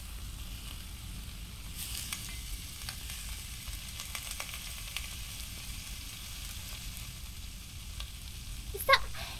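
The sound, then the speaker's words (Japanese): Dried meat sizzles on a grill net, a soft, steady crackling hiss that stays even throughout, with a brief sharp knock near the end. “網に乗せる。あとは出来上がるのを待つばかり。そろそろ干し肉をひっくり返そうか。”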